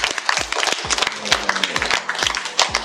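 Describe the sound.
Audience applause breaks out after a speaker is praised: a dense patter of many hands clapping, with a few sharper individual claps standing out, fairly loud and steady throughout.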